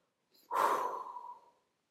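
A deep breath during a guided full-moon relaxation exercise: a brief, faint intake followed by a long, loud, breathy exhale that gradually fades out.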